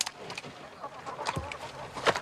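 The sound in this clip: Chickens clucking inside a chicken coop: a few short, irregular clucks and squawks of varied pitch, with a louder burst near the end.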